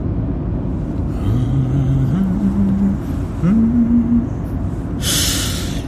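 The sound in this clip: A car accelerates along a mid-mountain road on Jeju Island. Its low engine drone climbs in pitch in a few stepped rises over a steady road rumble, and a short burst of hiss comes near the end.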